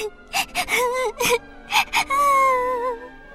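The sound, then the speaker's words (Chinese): Little Gretel bursting into tears: a few gasping, breathy sobs break into a long, wavering wail that holds, then trails off. “小小的格雷特越想越难过，越想越伤心，哇的一声就哭了出来。”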